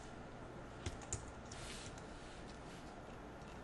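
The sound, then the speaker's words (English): Computer keyboard typing as a hint is entered into a form field; very faint, soft key clicks throughout, with two slightly sharper taps early on. “And I'll just type a hint. Must be divisible by 5.”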